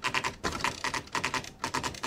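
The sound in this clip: Typing on a 1980s electronic typewriter with word processing and a correction tape: a dense, clattering run of rapid keystrokes in several bursts separated by brief pauses.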